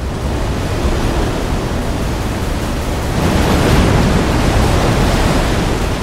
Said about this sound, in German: Die Attraktion ist eine riesen Tanzfläche, die aus dem Meer an die Oberfläche steigt.